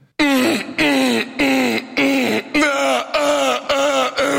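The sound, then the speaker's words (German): A voice imitates a neighbour's loud sex moaning, a string of many voiced moans in a steady rhythm with short gaps. Each moan has wavering, gliding pitch, and the moans are loud and alone. “Der f***t jeden Abend sehr laut. Wirklich, das hört sich jeden Abend so an bei mir.”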